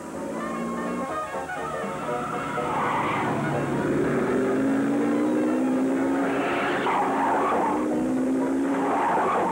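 A car accelerates at full speed during a chase, its engine roaring hard and rising in strength while tires screech and skid over it, growing louder and holding a loud, continuous level.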